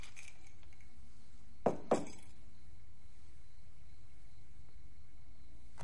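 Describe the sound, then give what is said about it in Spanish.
Two sharp, bright clinks of pens dropped into a pot set on a desk, close together and otherwise quiet. “En el suelo guarda bolígrafos en un bote que deja sobre el escritorio.”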